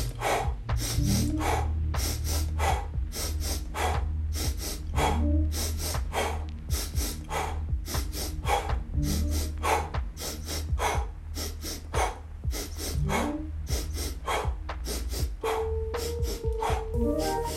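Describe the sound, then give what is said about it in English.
Breathing exercise of a double inhale followed by a single exhale, repeated many times: sharp paired sniffs and breathy releases in a quick, steady rhythm over low sustained background tones. “Double inhale, single exhale.”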